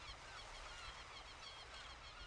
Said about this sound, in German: Und hoch über dir fliegen ein paar Möwen.